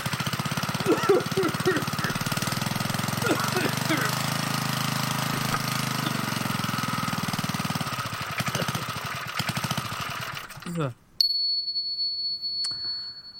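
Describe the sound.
A harsh, droning sound effect plays as a random topic generator. A dense, rattling buzz runs loud for about eleven seconds, with voices over parts of it. It then cuts off abruptly and is followed by a sustained high ringing ding.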